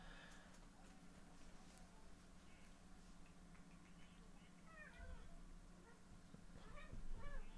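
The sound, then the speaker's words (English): A cat meows faintly in the background, giving a few short, high, wavering calls near the end over a low, steady hum. “I can hear your cat in the background.”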